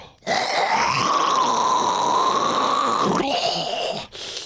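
A long, deep, throaty breath meant to clear the throat: a rasping, voiced groan held steadily for about four seconds, then a brief pause and a short follow-up breath.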